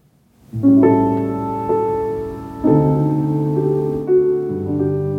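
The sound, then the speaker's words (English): Sampled piano from a software plug-in, played dry without a record-player effect: a few clear chords struck one after another, each ringing and slowly decaying, full and moderately loud, with no voices. “So if you turn this off, you can see this is the sound of the actual piano.”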